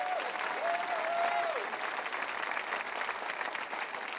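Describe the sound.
A church audience applauding, a steady wash of clapping that holds an even level throughout, with a brief whoop or cheer from one voice near the start.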